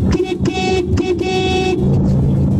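Car horn honking loudly in several blasts of differing length, each a bright, steady, buzzy tone, over a dense low rumble of background noise.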